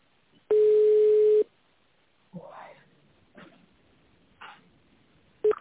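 A phone line's ringback tone plays while a call is transferred to an internal extension. One steady, mid-pitched tone lasts about a second, then a pause with a few faint noises, and the tone starts again at the very end.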